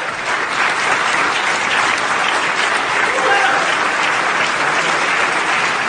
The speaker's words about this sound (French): Longue ovation debout dans cette salle du conseil pourtant d'ordinaire très policée.